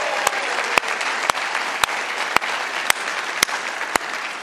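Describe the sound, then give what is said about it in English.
An audience at a church gathering applauds for mothers, steady dense clapping punctuated by sharp, evenly spaced clicks about every half second. “Come on, let's give it up for all the moms today. Can you do that?”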